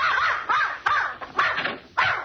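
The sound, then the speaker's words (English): A dog barking in a few sharp, yelping bursts with short gaps between them, moderately loud and without voices. “I came for Mrs. Pondicker's dog to take him for a walk. Here he is, and he's all yours.”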